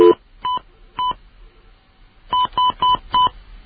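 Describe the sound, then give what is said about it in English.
Touch-tone keypad beeps as a local telephone number is dialed without an area code to place a call. Seven short, loud two-tone beeps sound alone: three spaced out, then a pause, then four in quick succession. “Which means I don't have to dial an area code.”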